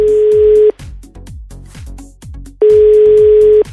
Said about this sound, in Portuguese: Vocês vão ligar agora que é fixo lá.